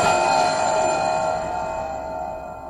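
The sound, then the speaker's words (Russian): A bell rings with a sustained metallic tone of several bright overtones, holding steady and fading slightly over a few seconds with no talk. “Звонок?”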